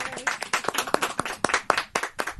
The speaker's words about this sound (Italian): Un applauso alla contadina.